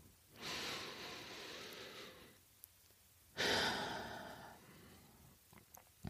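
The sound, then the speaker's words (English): One person takes a deep breath, drawing in slowly and breathily for about two seconds. After a short pause comes a stronger, sighing exhale that trails away. It is soft and close, with no speech. “let's just start this episode by taking a deep breath together, all the way in and all the way out.”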